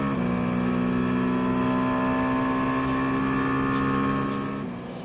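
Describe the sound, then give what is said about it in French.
Onboard engine roar of a racing car battling another car, a loud sustained harmonic drone at a steady pitch that eases off slightly near the end. “Quelques instants embarqués avec Nyck de Vries en bataille avec Antonio Giovinazzi.”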